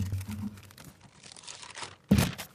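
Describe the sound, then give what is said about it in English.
Newspaper pages being handled, with soft rustling and crinkling paper throughout and one sharp, louder crackle of pages near the end. “This Oregonian paper”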